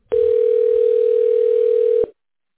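A steady electronic telephone tone plays while a call is transferred to a hospital's patient advocacy line: one continuous, loud, unchanging hum lasting about two seconds, heard alone and cut off abruptly.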